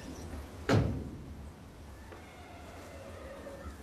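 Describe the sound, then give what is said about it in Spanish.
A door opening with a single short creaking burst near the start, followed by quiet low background noise. No voices are heard. “Una señora abre una puerta y espera apoyada en el marco.”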